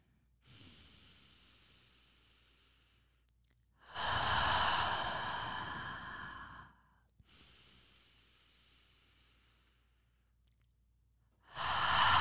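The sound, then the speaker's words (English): Slow, deep breathing, in through the nose and out through the mouth: long soft inhales alternate with louder, airy sighing exhales, about two full breaths with a third exhale beginning at the end. “So we'll just take three deep breaths. In the nose, out the mouth.”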